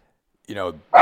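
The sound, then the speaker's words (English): A dog barking twice in quick succession, two short, loud, sharp barks with a brief gap between them, the second one cut off at the end. “you may hear my dog barking in the background, by the way. He's in every interview.”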